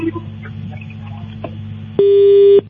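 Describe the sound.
A phone call disconnect tone: one loud, steady electronic tone lasting about half a second, sounding over a low continuous hum.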